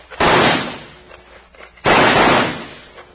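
Gunshots are fired into a cave where men are holed up. Two loud, sharp blasts, each with a short rumbling decay, are spaced well apart.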